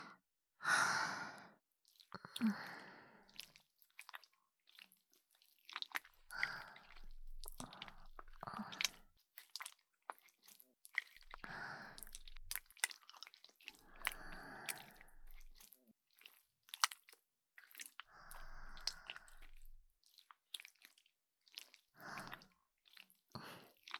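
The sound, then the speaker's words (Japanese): Soft, wet squelches and sticky clicks of liquid jelly worked between hands to prepare an ear massage, quiet and intermittent, with occasional slow breaths and sighs in between. “君の耳をマッサージする。最初は手で君の耳に液体のゼリーを塗っていくよ。ちょっと準備するね。”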